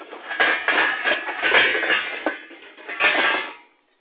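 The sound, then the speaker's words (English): Metal pots and pans clatter as an old popcorn pan is dug out of a kitchen cupboard. A few loud, jumbled bursts of clanking and scraping run together, then fall silent. “So, we have an age-old pan that we use, that we've always used for making popcorn here. So, excuse the noise, but I gotta dig it out.”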